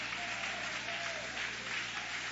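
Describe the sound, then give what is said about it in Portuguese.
A church audience applauds during worship, a soft, steady wash of clapping that continues throughout without breaks. “Levanta a mão aplaudindo, levante a mão adorando, levante a mão glorificando.”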